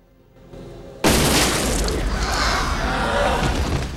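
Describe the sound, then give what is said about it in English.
A gunshot fired into a man's back on a diner rooftop at sunrise: a low rumble, then one sudden loud blast that leaves a long, roaring, noisy tail. “He prepares to light the pyre at Jack's feet, but Father Adam shoots him in the back.”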